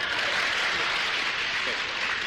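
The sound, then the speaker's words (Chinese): Audience applause for a crosstalk comedy performer: an even, faint hiss of many hands clapping together, steady from start to finish. “这个刚才您给他鼓了半天掌了，那么我这个掌声呢，可没有他热烈啊。”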